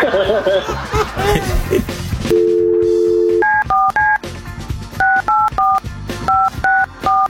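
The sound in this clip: Touch-tone telephone dialing. A steady dial tone is followed by a quick series of short beeps in uneven groups, after people laugh and talk.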